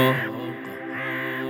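Crows caw in harsh, drawn-out calls that are fairly loud and heard alone, with a brief dip between them.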